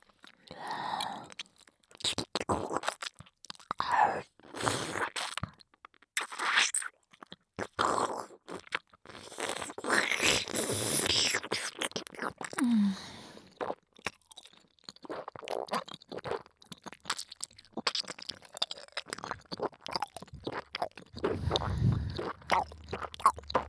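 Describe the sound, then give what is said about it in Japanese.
Close, wet chewing with crunching and squishing mouth sounds. Many irregular bites and chews continue steadily throughout, with no clear speech. “咀嚼させていただきます。”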